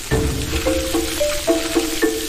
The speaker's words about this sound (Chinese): 备制好的羊油入锅，小火炼化，放入葱姜、洋葱及桂皮、香叶等香料辅助增香